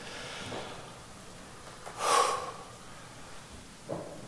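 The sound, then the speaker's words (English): A slow, deep breath taken together, with one prominent airy rush in the middle and fainter, softer breaths before and after. No talk. “Let us take a deep, centering breath together.”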